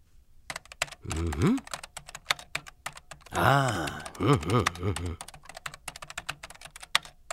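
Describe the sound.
Rapid clicking of typing on a computer keyboard, with many key presses in uneven bursts. A voice speaks over it at times.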